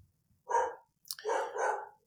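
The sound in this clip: A dog barks loudly on its own, one short bark and then, after a pause, a longer two-part bark.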